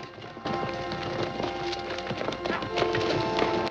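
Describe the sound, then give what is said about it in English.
Horses' hooves pound as a gang rides hard on a dirt trail toward the mountains, kicking up red dust. Many rapid, overlapping clip-clop hoofbeats form a dense, steady clatter. “Their horses' pounding hooves stir up red dust on the ground.”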